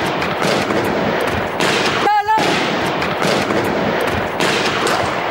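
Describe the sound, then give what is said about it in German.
Rapid gunfire from two masked, heavily armed attackers storming a newspaper's editorial offices in Paris: many loud, sharp shots in dense bursts fill nearly the whole clip, broken by one brief pause. “Zwei vermummte und schwer bewaffnete Männer stürmen in die Redaktionsräume und beginnen sofort zu schießen.”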